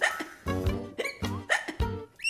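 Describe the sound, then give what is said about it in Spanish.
A person with hiccups makes a few short, voiced hiccups in quick succession, each one a sharp vocal jolt separated by brief pauses. “ya me dio a mí también. No me gusta tener hipo.”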